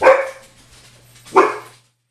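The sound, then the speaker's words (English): A pet dog barks twice in a home office during a recording session. The two sharp, moderately loud barks are about a second apart, with a faint low hum in between. “That's my dog.”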